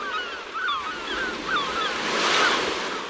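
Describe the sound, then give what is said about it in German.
Sea waves wash onto a beach in a breeze, a continuous rushing surf that swells louder toward the end, with short, bright bird calls above it. “Ich habe mal kurz zum Strand rüber geschaltet und eine kleine Meeresbrise bestellt. Die kommt hier gerade zum Fenster reingeweht.”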